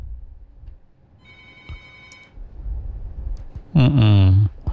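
A telephone rings as a call is being connected, with a short burst of steady ringing tone followed by quieter background sounds.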